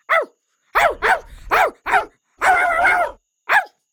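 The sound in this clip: Dog barking as it chases a wolf bothering a village: about seven sharp, loud barks in an uneven rhythm, one of them drawn out longer than the rest, with no voices.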